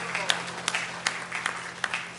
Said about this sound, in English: Give Him a hand clap of praise and thanks tonight.